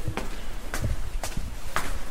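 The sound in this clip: Footsteps climbing inside a building: four evenly spaced, fairly soft steps with a steady walking rhythm and no speech.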